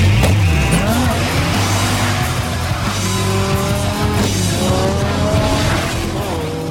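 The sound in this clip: Tires squealing and engines revving as cars drift sideways in a street-racing movie scene, a loud continuous screech layered with engine tones that sweep up and down in pitch throughout.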